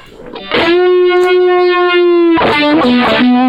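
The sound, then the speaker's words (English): Electric guitar through a Monterey fuzz pedal, a distortion and octave effects unit: one long, heavily fuzzed note is held, then a few shorter, wavering notes follow, loud and buzzy throughout. “And there's a fuzz built in that, so if you really wanted to get your Monterey, you know, the pedal's called Monterey, so if you want to get your real Monterey sound.”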